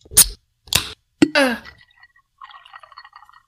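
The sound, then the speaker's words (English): A drink can is cracked open: a few sharp clicks, then a quick hiss of escaping gas, followed by faint, crackling fizz that lingers quietly. “Can I crack my drink now? Let's do it.”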